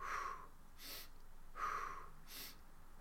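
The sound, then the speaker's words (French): Soft breathing, in through the nose and out through the mouth, during a guided breathing exercise with the fingertips resting on the chest. About two slow, even cycles of faint airy inhales and exhales. “j'inspire par le nez et je souffle par la bouche”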